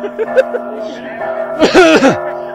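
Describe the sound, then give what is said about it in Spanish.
A person coughs and clears the throat: a few short voiced throat sounds at the start, then a louder, rough burst near the end. “Ay, decir esas palabras me hace toser.”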